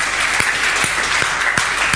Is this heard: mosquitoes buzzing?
no